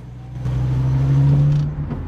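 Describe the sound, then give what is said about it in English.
A car drives away with a low engine drone. The drone swells over about a second, then eases off slightly, and no voices are heard. “He smiles politely and drives away.”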